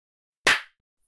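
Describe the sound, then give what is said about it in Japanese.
A single sharp hand clap, crisp and bright, standing alone in silence. “手を叩くとすっきり目が覚めて、これまでの暗示もすべて消えてなくなります。”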